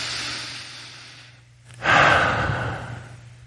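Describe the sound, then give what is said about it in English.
A person takes a deep breath: a long, airy rush of breath, a short pause, then a louder, fuller breath that slowly fades. “So I'm going to take a deep breath with me.”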